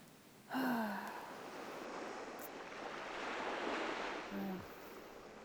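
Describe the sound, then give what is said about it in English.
Ocean waves seen from a ship at sea: a steady, broad rushing wash of surf that swells slightly and holds throughout, with two short voiced gasps, one near the start and one near the end. “But that's the ocean out there.”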